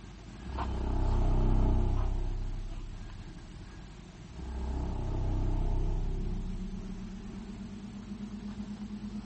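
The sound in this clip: A car engine revs in two long, rumbling surges as the driver pulls away, each swelling up and easing off. The engine then settles into a steadier, lower drone.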